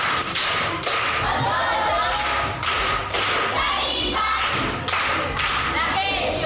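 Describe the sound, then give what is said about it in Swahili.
Schoolchildren at Nyasura primary school applaud a visiting woman: a dense, steady clatter of many small hands runs throughout, with dull thumps mixed in. “Makofi kwa shangazi.”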